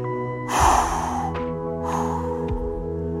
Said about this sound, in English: 1, 2, 3, 4, two big exhales.